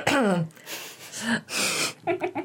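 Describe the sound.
An exaggerated, dramatic throat clearing made by a person's voice: a falling voiced groan, then raspy, noisy bursts, ending in a few short guttural pulses.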